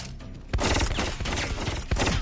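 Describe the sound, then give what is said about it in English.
Loud gunfire from a movie action scene: dense, rapid bursts of shots that begin abruptly and continue, with a fresh surge of firing near the end. “You just shot him in the chest 500,000 times”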